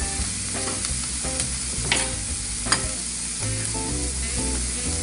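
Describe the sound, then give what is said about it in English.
Two eggs being scrambled in a pan where chopped spinach is cooking, giving a steady stirring and sizzling texture with a few sharp clicks of the utensil against the pan. “And while that's going on, I'm gonna scramble my eggs. You see this goes really fast. So scramble my two eggs.”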